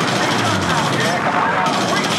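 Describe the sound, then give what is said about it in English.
Machine guns fire from B-24 bomber gunners at attacking Zero fighters in an aerial battle. The fire makes a dense, unbroken, loud rattle that blends into a steady roar through the whole clip. “the B-24 gunners rain fire on the Zeros and are deadly accurate.”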